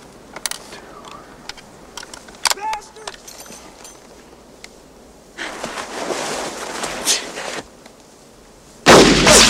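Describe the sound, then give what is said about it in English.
Gunfire during a shootout: a few sharp, isolated reports early on, then a noisier busy stretch, ending in a loud, abrupt blast. Voices are present amid the shots. “How many more shots do I have?”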